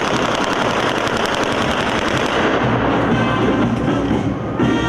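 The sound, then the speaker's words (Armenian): Rapid automatic gunfire roars continuously and loudly for several seconds as demonstration shooting at the opening of a military exhibition. “Ցուցահանդեսը բացվեց ռազմական նվագախմբի եւ ցուցադրական կրակոցների ուղեկցությամբ։”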